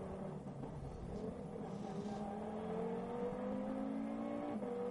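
A racing prototype car's engine, the 902, drones loudly and steadily, its pitch climbing gradually as it accelerates before dipping briefly near the end.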